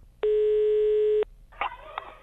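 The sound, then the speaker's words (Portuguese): A telephone tone sounds as a call is placed: one steady, pure electronic beep lasting about a second, followed by quieter line noise. “Vamos ligar mais uma coisinha pra ela? Ai, liga, vai. Então vamos ligar pra trambiqueira com nós mesmo, rapaz. Vamos ligar, liga aí, vai.”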